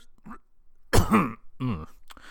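Raspy throat clearing mixed with coughing: a faint rasp, then a loud, rough burst, followed by shorter voiced grunts that clear the throat again.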